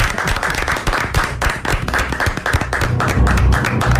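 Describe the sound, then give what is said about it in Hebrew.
An audience applauding at a Torah quiz contest: loud, dense clapping with individual claps audible inside the wash, sustained at a fairly even level throughout. “אני הייתי מציע שנפתח במחיאות כפיים.”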